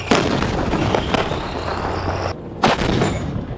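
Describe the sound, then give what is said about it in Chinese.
Tank guns firing live rounds while moving during a combat shooting exam, a few sharp, heavy blasts cutting through a constant rumbling roar that briefly thins before another loud shot. “在坦克战斗射击考核中，坦克车组不仅要在行进间对目标进行瞄准，还需合理利用障碍物，在短时间内对不同距离、不同性质目标进行射击”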